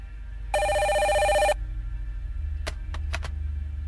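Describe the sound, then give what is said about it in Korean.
A telephone bell rings in a single loud, trilling one-second burst, then the line falls quieter before a few sharp clicks follow over a low background hum. “바로 그때 전화벨 소리가 울려왔다.”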